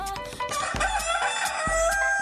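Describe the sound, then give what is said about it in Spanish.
A rooster crows in one long, strained, loud call, with two deep, low thuds beneath it. “Es miércoles y el gallo lo sabe y lo sabemos todos nosotros, así que ¡súbanle ese gallo, venga!”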